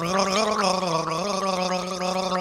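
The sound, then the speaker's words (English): A man gargles a tune, producing a continuous, wavering, pitched gurgle that moves up and down like a melody, loud and alone without speech. “Marvel at the raw power of this, the greatest of all garglers gargling the hits in this multi-genre spanning album.”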